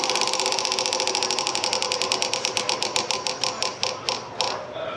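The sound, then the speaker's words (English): Prize wheel spinning at an ACC Kickoff football media event, giving a fast run of evenly spaced ratcheting clicks that steadily slow and spread apart as the wheel loses speed. “We got this wheel. We were giving you guys a warning during the break. They're really hoping it lands on Coach Impression.”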